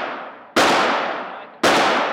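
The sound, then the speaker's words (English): Gunshots from a loaded gun at a shooting range: two sharp, loud reports, each followed by a long fading tail, come after the dying tail of an earlier shot. “The gun is now loaded. You have three shots.”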